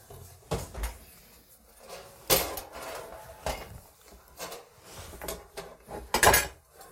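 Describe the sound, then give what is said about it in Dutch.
Knocks and clunks as bread is taken out of a baking tin with oven gloves: several scattered hard taps and clatters of the tin, spaced irregularly, with the loudest cluster near the end and no talking. “De handschoenen nemen en dat brood uit die vorm halen. Want dat is volgens mij genoeg gebakken.”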